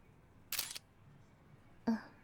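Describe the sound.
Two crisp camera shutter clicks, spaced more than a second apart, from a camera taking photos, each short and sharp over an otherwise quiet background.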